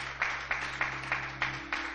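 Steady rhythmic hand clapping at a church service, six even claps spaced about a third of a second apart, fairly faint over a low constant hum, with no talk.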